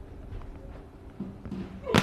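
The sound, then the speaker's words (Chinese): A volleyball is struck hard on a jump serve during a match, a single sharp smack near the end cutting through a low, steady background murmur. “大力的跳发，冲击力很足，对方直接把球垫过来”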